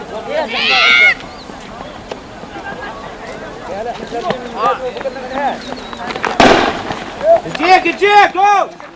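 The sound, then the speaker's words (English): A sharp gunshot-like bang rings out as rubber bullets are fired during a clash with tear gas and youths throwing rocks. The single loud crack stands out against a steady din of shouting voices and crowd noise. “Now they're shooting rubber bullets.”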